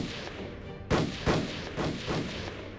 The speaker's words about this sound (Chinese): 枪声不止一下，山地沉寂，营地又在近乎合围的谷地，拢声效果非常好，所以这枪声似是放大了好几倍，每一下都震得孟千姿